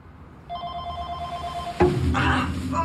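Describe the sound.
A telephone rings in an apartment in the morning, one sustained electronic trill that is cut off by a sharp knock, followed by rustling.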